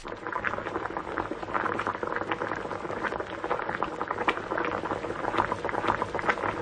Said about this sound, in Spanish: Removemos, añadimos el caldito, una pizca de sal y de pimienta, removemos un poquito más y lo dejamos cocer a fuego lento una hora más o menos.